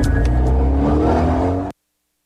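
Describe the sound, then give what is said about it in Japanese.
Engine of an Alpine A110 sports car with an all-aluminium body and four-wheel double-wishbone suspension: a loud, steady drone that revs slightly, then cuts off abruptly after under two seconds. “オールアルミボディ四輪ダブルシュボーンが生み出す軽快な走り、思いのままに走る気持ちよさ。さあこの手にアルピーヌ A110。”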